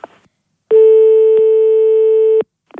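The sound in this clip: A single steady telephone line tone lasts nearly two seconds after a call is hung up. It is clear and alone, with brief snatches of voice just before and after.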